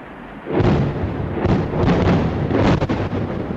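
Explosions from NATO air strikes bombing Libya hit with a sudden heavy boom and roll into a loud, sustained low rumble, with a few further thudding pulses swelling through it.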